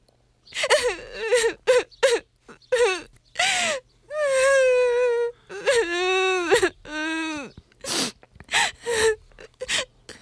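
A woman crying and sobbing, with many loud wailing cries and whimpers broken up by sharp gasping breaths, the pitch wavering through each drawn-out sob.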